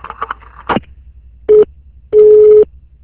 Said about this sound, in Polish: No niestety coś się nam przerwało połączenie.